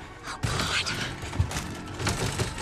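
Faint rattling and clanking of someone forcing a door lock, with irregular mechanical clicks and a few dull thumps against a steady noisy background.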